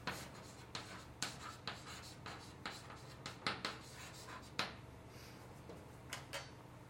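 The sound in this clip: Handwriting text by hand with a pen: faint, quick scratchy strokes and light taps come in an irregular rhythm, many short bursts in a row, with no talk over them.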